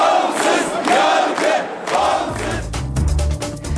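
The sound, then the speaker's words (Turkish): A crowd celebrates a lawyer's re-election as bar association president with loud rhythmic chanted shouts, several surging bursts of massed voices, then a lower, rumbling din of cheering. “Resmi sonuçların açıklanmasının ardından Koca Sakal'ın seçim zaferi coşkuyla kutlandı.”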